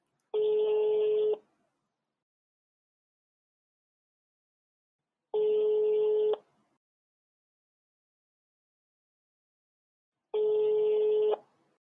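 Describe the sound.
Ringback tone of a telephone call ringing out unanswered: three long, steady, buzzy tones of equal length, evenly spaced with silence between them.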